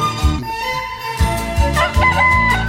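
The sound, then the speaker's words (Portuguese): A bantam rooster crowing at about five in the morning, a loud, tonal, drawn-out call rich in harmonics. “o Garnizé cantando bonitinho pra gente, hein?”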